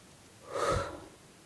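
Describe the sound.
A single slow, deep inhalation by someone lying down in bed, a soft breathy rush that swells and fades within about a second, heard alone without talk.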